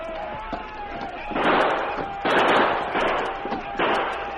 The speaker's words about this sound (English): the sergeant and Chet fired steadily at the menacing shadows, creeping closer and closer to the post